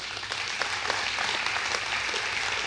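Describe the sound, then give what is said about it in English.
An audience claps steadily at a church gathering, a dense and even spatter of applause that holds throughout. “You guys are absolutely awesome. Give yourselves a hand.”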